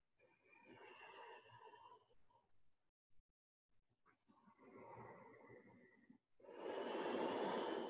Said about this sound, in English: Feel the air move. Build fire. A little more resistance in your throat. It's a good time for recreating ujjayi breath.